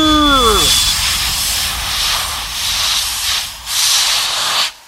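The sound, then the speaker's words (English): A fire extinguisher sprays on a kitchen stove fire, giving a loud, steady rushing hiss for nearly five seconds that stops abruptly. A short falling tone is heard at the very start. “installed extra fire extinguishers before his big night out”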